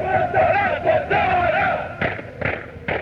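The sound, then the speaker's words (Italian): Football fans chant a marching song in unison while marching and stamping their feet. A sustained chanted line gives way to a few sharp rhythmic bursts of crowd noise. “Qui si canta mentre si cammina, sicuramente, perché questa è una marcetta che loro fanno marciando, battendo i piedi, più che altro trum trum si sente il rumore.”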